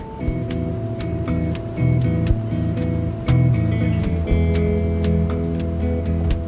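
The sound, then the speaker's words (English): Street ambience at the corner of 44th and Lexington in New York: a steady, dense roar of traffic with a constant low hum, a few louder swells and scattered sharp ticks. No voices stand out. “We stand at the corner of 44th and Lexington.”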